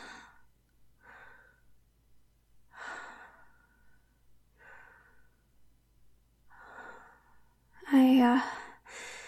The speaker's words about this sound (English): No, I'm okay. Just give me a second to catch my breath.